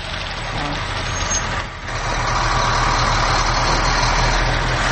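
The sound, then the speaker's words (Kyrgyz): Heavy machinery works steadily at a factory construction site behind a residential building, giving a continuous low engine rumble with a brief dip in loudness before it resumes. “Ал эми артында завод курулушу тынбай жүрүп жатат.”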